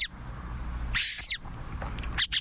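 Montagu's harrier calling, a rare raptor giving its call and then its alarm call: a drawn-out, high, thin chattering call, then a few short, sharp, high notes near the end, over a low, steady rumble.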